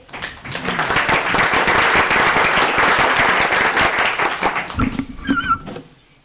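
A legislative chamber applauds to welcome a young city councilman. Dense, steady clapping rises quickly, holds for about five seconds, then thins into scattered claps and fades.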